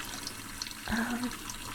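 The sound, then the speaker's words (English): Water churning in a large hot tub with water jets, heard as a steady hiss and bubbling wash that runs through the whole clip at a fairly low level. “Yeah, it's a pretty big hot tub.”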